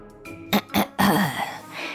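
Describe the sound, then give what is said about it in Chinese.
A father clears his throat, voiced by a storyteller: two short gruff bursts followed by a longer rumbling rasp that trails off. “爸爸清了清喉咙”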